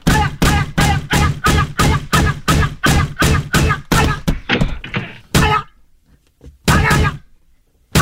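A locked door is pulled hard by its handle, producing a long run of rapid, evenly spaced loud thuds and rattles. The rhythm then breaks off and a few scattered, heavier bangs follow.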